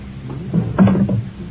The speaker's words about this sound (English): I took them off down here earlier on and left them for safety in one of your desk drawers. Oh, which one? That one. Ah, better open up and put them on again, haven't you?